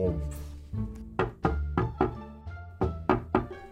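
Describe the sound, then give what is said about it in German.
Knocking on a door as part of a children's pretend game, with many quick, dull knocks in uneven groups over a low steady hum. “jetzt tust du es durchklopfen. Türklopf.”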